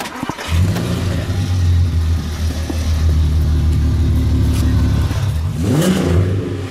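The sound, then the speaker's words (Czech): A van's engine cranks and catches, then settles into a steady, loud, low idle rumble that holds for several seconds before a brief rev near the end. “Tak zkuste nastartovat.”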